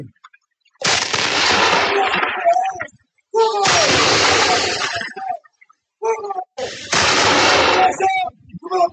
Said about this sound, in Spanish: ¡Batería, fuego!